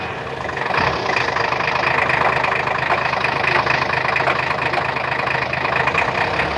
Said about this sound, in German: Ich fahre mal ein Stück weiter.